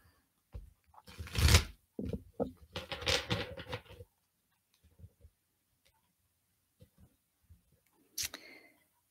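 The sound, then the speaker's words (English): A deck of tarot cards is shuffled in several quick, papery riffling bursts, followed by sparse faint taps and clicks as the cards settle. “Okay, so I am shuffling the deck right now, and we're just going to get a message, and then we'll talk about that.”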